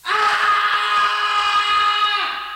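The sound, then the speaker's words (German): A man screams in the night, one long sustained cry held at a steady pitch, loud and alone, that sags slightly and fades at the end. “Fatzer schreit in der Nacht.”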